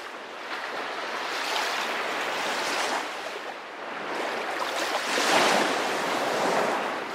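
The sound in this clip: Sea waves wash continuously onto the shore in a broad, rushing hiss that swells and eases in slow surges, with no voices.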